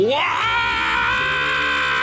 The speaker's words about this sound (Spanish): Buen grito